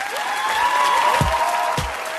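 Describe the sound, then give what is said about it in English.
Applause from an audience at a New York City poetry event, welcoming a poet to the stage: sustained, dense clapping at steady loudness through the whole stretch, with no voices standing out. “please give a warm round of applause to Mr. Miguel Algarin.”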